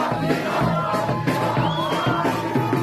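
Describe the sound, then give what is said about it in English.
Crowd of Iranians cheering in the streets of Los Angeles, celebrating news from Iran: a dense, continuous roar of many voices with shouts and whoops rising above it, steady and loud throughout. “That's the sound of Iranians in the streets of Los Angeles on Saturday as they welcomed the news that Iran could be on the doorstep of significant changes.”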